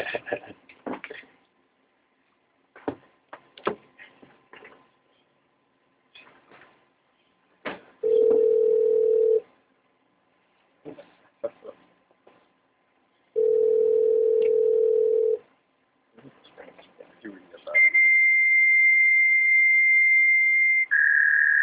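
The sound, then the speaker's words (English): A dial-up modem connecting: clicks and short dialing bursts, then two long, steady low tones, followed by a sustained high, piercing tone that drops to a slightly different pitch at the very end. “windows. Dial up. Fail. Allergic to that sound,”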